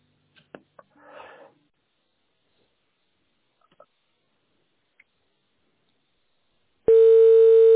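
A telephone tone while a call is transferred: a few faint clicks and a soft rustle, then a long near-silence before a loud, steady electronic tone switches on abruptly and holds to the end.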